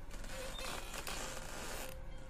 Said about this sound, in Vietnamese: Lúc này, tiếng nhà sàn kẽo cả kẽo kẹt, đến xót ruột lại vang lên.